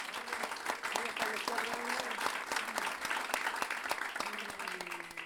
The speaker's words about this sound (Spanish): así que yo creo que se merece un aplauso